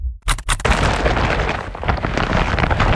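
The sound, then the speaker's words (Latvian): An IKEA shopping bag full of clearance goods lands with two sharp, loud impacts, followed by dense, sustained rustling and clattering of the packed items. “Dzirdi? Tā skan IKEA iepirkuma maisa ar izpirkšanas precēm.”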